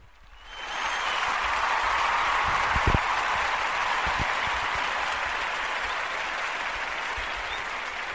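A studio audience applauds and cheers. The clapping swells in quickly from near silence and then holds as a thick, steady roar to the end.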